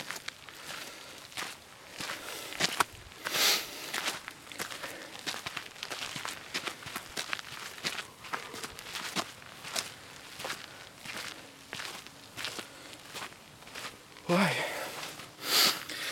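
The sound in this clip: Footsteps walk up a slope on a forest trail, a steady run of soft, even steps that keeps going throughout with no pause.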